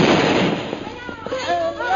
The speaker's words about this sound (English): Look, they've spotted us. You're all through, Bhutan. Do you see that bomb coming?